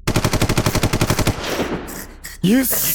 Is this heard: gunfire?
yes